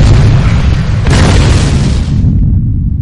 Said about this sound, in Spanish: Lo activa. Todas las cargas a su alrededor explotan.